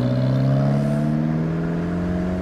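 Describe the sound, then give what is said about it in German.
A passing Alfa Romeo convertible by Lake Chiemsee gives a loud, steady engine drone that holds level through the moment, with no talking over it. “Alfa Romeo. Aus München fährt da vorbei.”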